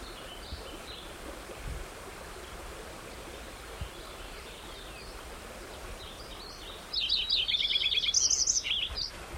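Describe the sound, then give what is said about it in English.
White-crowned sparrow song over a steady rush of stream water. After a long stretch of water alone, a bright, high run of whistles and quick trills begins near the end. “White Crown Sparrow singing”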